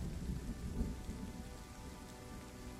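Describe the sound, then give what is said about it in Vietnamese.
Heavy rain pours down in a thunderstorm: a dense, continuous hiss with deep rolling thunder rumbling underneath, heaviest near the start, with no voices. “Tiếng mưa vẫn rơi không ngừng. Những trận sấm sét đang điên cuồng giáng xuống.”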